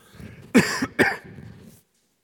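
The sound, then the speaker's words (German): Two short, fairly loud coughs come in quick succession from someone with a slight cough, followed by quiet. “Irgendwie habe ich so ein bisschen Husten.”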